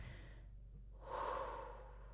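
A single deep breath, a soft, airy rush of air that swells in the second half and slowly fades, with no talk around it.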